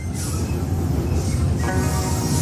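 A moving train carriage gives off a loud, continuous low rumble with rattling and a hissing wash that swells and recedes, with no voices.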